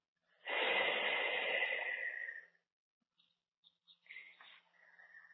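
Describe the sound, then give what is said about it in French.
A deep breath is drawn in and let out as one long, loud rush of air. A few faint, brief breathy sounds follow in near silence. “Et vous inspirez profondément. Et vous expirez.”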